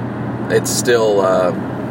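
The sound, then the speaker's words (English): A car drives on the 101 freeway, with a steady low cabin rumble running throughout and a brief vocal sound rising over it midway. “So right now, I'm driving right now on the 101, heading toward the 405, so I could see the smoke in the air.”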